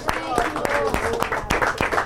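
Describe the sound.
A church audience clapping in praise during worship: many crisp, fairly regular claps under voices, the crowd sound staying lively and loud throughout.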